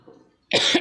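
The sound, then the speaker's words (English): A single harsh cough bursts out loudly and lasts a fraction of a second, after a faint low murmur and a short moment of near-silence. “now it's my turn to cough.”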